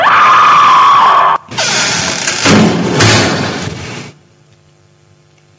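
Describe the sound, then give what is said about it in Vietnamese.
A door of an anatomy lab is flung open with a loud, harsh rush of crashing noise that lasts a few seconds, then cuts off abruptly into near silence. “cô đã lấy hết can đảm mở toang cánh cửa phòng thực nghiệm giải phẫu.”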